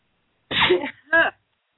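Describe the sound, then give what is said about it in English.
One loud sneeze in two parts, a breathy build-up and then a sharper burst, with no talk around it. “because I'm probably going to sneeze.”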